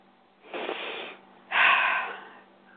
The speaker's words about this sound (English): that's the kind of breath that moves the energy.